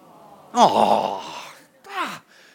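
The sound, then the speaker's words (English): An audience groans on request in two drawn-out groans that fall in pitch. The first is long and loud, the second shorter, with a brief pause between them. “Everybody give me a groan.”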